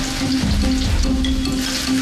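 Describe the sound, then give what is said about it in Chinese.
Ginger frying in a mix of lard and vegetable oil heated to about 40 degrees, for making scallion oil. A steady, soft sizzling hiss with fine crackle runs throughout over a low constant hum, with no voices. “油烧到40度，放入姜、”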